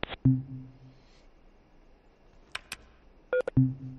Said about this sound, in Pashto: تلیفونونه هم قطع میشه بله او تلیفونونه پرلا پسې قطع کېږي